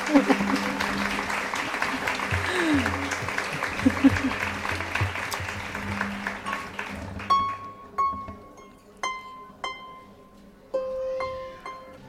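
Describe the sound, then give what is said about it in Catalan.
Audience applause after a harp and guitar performance at a cultural week event: loud, dense clapping for about seven seconds, then it stops and a few plucked tuning notes ring out alone. “pues igual demano un fort aplaudiment”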